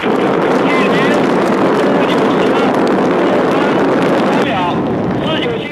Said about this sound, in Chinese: 火箭在轰鸣声中腾空跃起，直入苍穹。